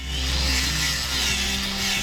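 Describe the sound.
A saw cuts wood to a measured length for a new deck frame. A steady, loud rasping buzz runs over a low hum without a break for the whole stretch.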